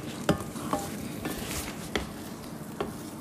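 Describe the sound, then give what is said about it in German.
Scrambled eggs being stirred in a pan: several sharp clicks and scrapes of the utensil against the pan, spaced unevenly, over a steady sizzling hiss. “jetzt ähm, rühren wir das mal rum”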